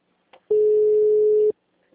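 A telephone tone after a dropped call: one steady, unbroken beep of about a second, with faint clicks just before and after.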